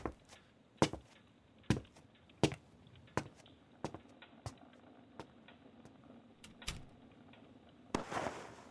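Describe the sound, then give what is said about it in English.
Wood fire crackling in a fireplace as it burns down: many sharp, irregular pops and snaps over a low steady hiss, ending with a denser burst of crackle. “I'll keep the fire on, but don't add any more wood. Let it die when it's ready.”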